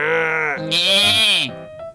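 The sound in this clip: A sheep's bleat, made as a sound effect for a children's book about a farm sheep: one long, loud, wavering cry lasting about two seconds, with a quick break and a brief fainter sound at the end.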